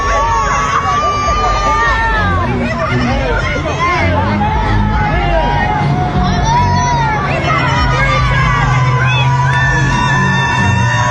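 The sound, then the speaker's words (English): A crowd out in a street in Georgia yelling and cheering: a dense, loud, unbroken babble of many voices with whoops and shouts rising out of it throughout. “Yeah, this is in Georgia, isn't it? They're all screaming free Trump. And these are black people out in the street showing their support for President Donald J. Trump.”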